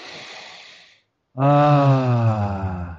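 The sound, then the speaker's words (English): A deep breath taken to clear the mind before singing: a soft, airy inhale, a brief silence, then a long voiced exhale, loud and sighing, its low tone sinking slightly as it fades. “All right, let's take a deep breath to clear our minds.”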